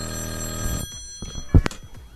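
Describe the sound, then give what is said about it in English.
A telephone rings with an incoming call: a brief, fairly quiet ringing tone that cuts off, followed by a couple of short, sharp knocks. “Oh shit, there it is. Someone from Chicago's calling me.”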